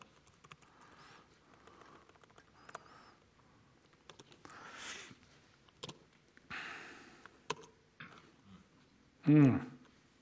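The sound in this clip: Computer keyboard typing during a coding demo in a designer editor: scattered faint key clicks and taps across the whole stretch, with a few louder noisy bursts and a brief voice near the end.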